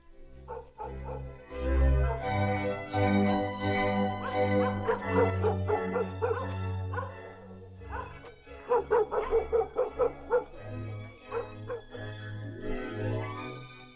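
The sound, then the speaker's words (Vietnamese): Dogs barking at night toward the edge of a forest: irregular barks, yips and whimpering whines, with a quick burst of repeated barks midway, loud and uneven throughout. “Đâu đó chỉ có tiếng chó cắn ma nhấm nhà nhấm nhẳng hướng về phía bìa rừng.”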